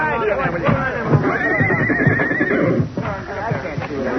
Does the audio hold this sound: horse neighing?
yes